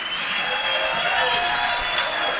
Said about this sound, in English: Larry Sparks and the Lonesome Ramblers. A big round of applause.